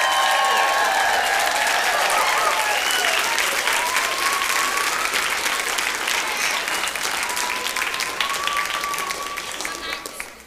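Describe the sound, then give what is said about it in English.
A standing audience at a children's Christmas musical applauds and cheers for the kids: loud, dense clapping with shouts and whistles, easing slightly toward the end. “Would y'all mind standing up to your feet and make a lot of noise and let these kids know how proud we are of them tonight?”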